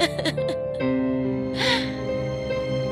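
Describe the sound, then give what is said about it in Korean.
Sobbing and whimpering voice of Cinderella, left alone and crying in an animated fairy-tale, with breathy gasps and wavering, drawn-out cries. “신데렐라는 혼자 남아 울고 있었지요.”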